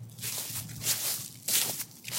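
Footsteps in moccasins near a lake in cold weather: a few soft, scuffing steps with brushy, rustling texture come in uneven bursts over a couple of seconds.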